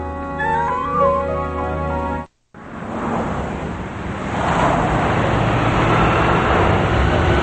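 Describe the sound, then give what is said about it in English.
Road and engine rumble of a box van being driven, a steady broad roar with a brief cut-out near the start and a slight swell in loudness later on. “Adam's driving a box van, and Troy is lurching back and forth inside.”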